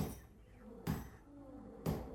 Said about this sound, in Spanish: El marro remachando los clavos golpea cerca de la cabeza de Calimán. Cada impacto hace estremecer el atlético cuerpo del hombre increíble que se ve sometido a la esclavitud.